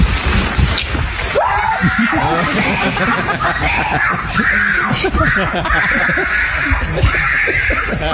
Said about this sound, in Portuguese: Escuta a gritaria.